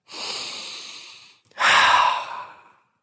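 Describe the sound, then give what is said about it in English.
Steam from a humidifier is drawn in with two long, airy breaths through the nose and throat: a steady hiss, a brief pause, then a louder, stronger inhale that tapers off. “That was me inhaling humidifier.”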